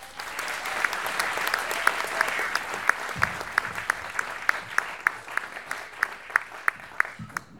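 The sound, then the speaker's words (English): Audience applause fills the Bumpport Theater at a live storytelling show. Dense, steady clapping runs throughout, with louder individual claps standing out at a quick rhythm. “go, yo, you can clap for that.”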